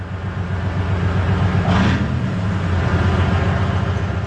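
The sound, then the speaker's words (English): Engine rumble of a large Soviet OSA wheeled armored anti-aircraft missile vehicle driving, a steady, loud low drone with broad mechanical noise and a brief brighter swell partway through. “Soldiers from the Bilatserkva Air Defense Regiment are driving their anti-aircraft missile system called OSA into cover. This giant Soviet armored vehicle on wheels is a lucrative target for Russian drones.”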